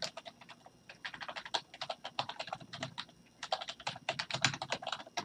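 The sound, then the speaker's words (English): Rapid typing on a computer keyboard, many quick, uneven keystrokes in bursts with a brief pause near the middle, heard alone without voices. “Sorry, I apologize for that brief moment because I cannot type and talk at the same time.”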